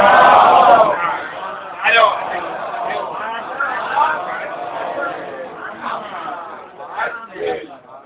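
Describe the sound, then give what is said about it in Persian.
An audience loudly chants the salawat blessing in unison, a dense, rhythmic mass of voices that swells in several pulses over about eight seconds. “مقدسه فاطمه زهرا سلام الله علیها و برای تحقق اهداف والای اسلام صلواتی جلی عنایت کنید.”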